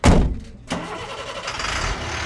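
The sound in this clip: A truck engine at a distillery gives a loud burst, dips briefly, then settles into a steady, rough, noisy rumble with no talk.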